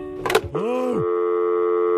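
A telephone line tone after a caller hangs up: a steady, buzzy, continuous hum held unbroken for about a second at an even level.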